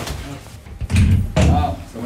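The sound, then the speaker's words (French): Heavy doors slam shut inside a prison, giving two loud, booming impacts in quick succession over a low background rumble. “Il n'y a que des portes, hein. Ça commence déjà, l'univers des portes.”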